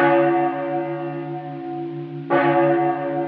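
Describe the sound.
A cracked church bell is struck twice. Each stroke gives a bright clang that settles into a long humming tone with sustained overtones, and the second strike lands while the first is still ringing out.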